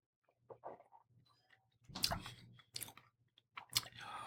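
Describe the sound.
Sipping Trader Joe's wine, heard as a few faint, wet slurping and mouth bursts with short quiet gaps between them.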